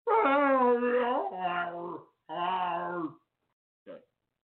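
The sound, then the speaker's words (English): A voice imitates a bear's funny sound: a long wavering, howl-like moan that drops into a lower tone, then a second moan and a brief final grunt. “You know how bears make a funny sound.”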